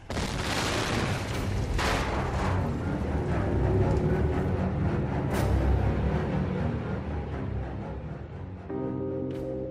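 A huge airship explodes with continuous heavy booming and rumbling, broken by sharp crackling bursts that stay loud throughout, with no voices.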